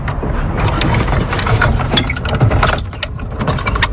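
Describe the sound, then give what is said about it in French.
A wheel lowers a fishing net with a counterweight beneath it, giving a continuous, dense mechanical rattling and clattering throughout, with no voices. “La roue fait descendre le filet. Il y a un contrepoids en dessous qui permet de ne pas peiner et donc de remonter ensuite très facilement.”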